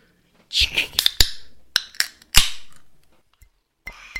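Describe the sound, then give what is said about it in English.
Sharp tapping on a coffee cup: a few quick, bright clicks come in an uneven cluster, then a short pause and a last faint tap near the end. “I just tapped my coffee cup.”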